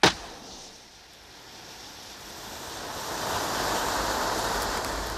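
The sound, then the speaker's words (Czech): Firewood being lit in a stove: a sharp strike at the very start, then a hissing, rushing roar that steadily builds and grows louder until the end. “Tak mi aspoň podpal dříví v kamnech, to umíš?”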